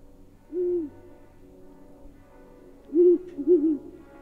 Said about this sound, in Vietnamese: Con chim cú lợn đậu trên vai tôi bỗng nhiên kêu lên mấy tiếng, nghe đến thảm thiết.